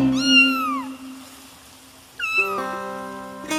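A cat meows twice, drawn-out cries whose pitch slides downward, the first longer and louder, over steady sustained tones.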